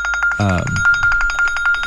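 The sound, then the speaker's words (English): A mobile phone rings with an incoming call, a rapid, evenly pulsing electronic tone that runs throughout, with a brief burst of a voice near the start. “Well, hey, that's Carl calling us now. So. I have to buy lunch today, I guess, and my phone went off.”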